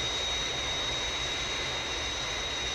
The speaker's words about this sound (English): On glide path, rate of descent 500 feet a minute. Aircraft on glide path. 3 miles to threshold.